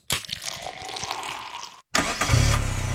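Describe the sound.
A car engine starts: a long cranking buzz with rapid pulses, a brief silence, then the engine catches and settles into a loud, steady idle with a deep, low rumble.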